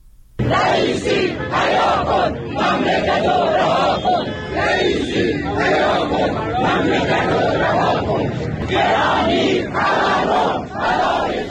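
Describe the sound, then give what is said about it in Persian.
Protesting retirees chant at a rally in Kermanshah, Iran, a loud, dense crowd voicing rhythmic slogans in repeated surging bursts that fill the whole stretch. “صدای بازنشستگان معترض در کرمانشاه رو میشنیدید.”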